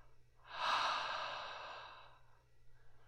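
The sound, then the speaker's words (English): A long breath blown out close to the microphone: one soft, airy exhale that swells quickly and then fades gradually over about two seconds, with no talk. “You feel the warmth of my breath?”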